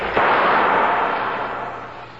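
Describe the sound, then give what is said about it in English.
A single pistol shot in a radio drama, fired at an unseen creature: a sharp crack near the start, then a long hissing tail that fades slowly. No voices are heard. “You have the pistol. Shoot at it. How can I shoot at it? I can't even see it. You can see it. It could be too late. Shoot at the sound.”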